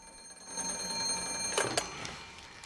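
A telephone rings with a steady, high electronic bell tone that holds throughout, a few brighter bursts near the middle and no voices.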